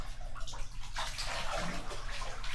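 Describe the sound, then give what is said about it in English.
Bath water splashes and pours as a young child is rinsed off in a bathtub. The gurgling, sloshing wash runs steadily throughout at a moderate level. “Okay, now we need to rinse you off.”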